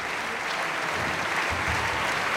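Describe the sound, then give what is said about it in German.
An opera audience applauds at the curtain call for the tenor singing Mr. Brouček, a steady, dense clapping that stays even and loud throughout with a few low thumps beneath. “und großer Jubel für Peter Hoare, den Herrn Brautschek.”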